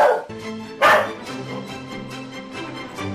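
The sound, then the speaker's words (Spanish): A dog said to have rabies barks: two loud, sharp barks, one at the start and one near the first second, followed by softer, lower sound. “¡Eh, tú! ¡Rompe la cadena de Chindasmito! ¡Tiene la rabia!”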